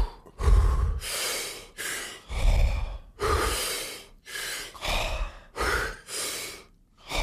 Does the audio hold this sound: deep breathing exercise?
yes